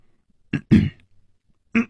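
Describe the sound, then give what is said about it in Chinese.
A voice imitates a character coughing: a few short, rough coughs, with the first two close together and another after a pause, each loud against silence. “歹独行咳了两声说”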